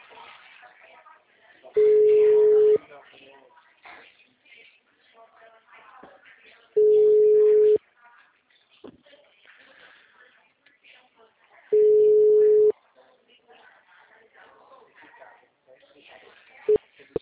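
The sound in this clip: Ringback tone while a caller waits for an answer: three steady, mid-pitched tones, each about a second long, spaced evenly several seconds apart, with a person talking quietly between them.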